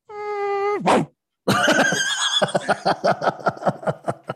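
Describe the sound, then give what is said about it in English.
A voice imitates a fart: a sustained buzzing tone drops sharply in pitch and cuts off, then after a short pause a long, loud, sputtering stretch of many rapid pulses follows. “So the fart in its entirety basically went,”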